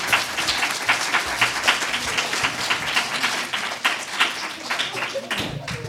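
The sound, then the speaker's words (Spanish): Loud, sustained applause from an audience for children who had learned all the songs. Dense clapping continues with brief dips near the end. “aplauso muy fuerte para estos niños que se han sabido todas las canciones.”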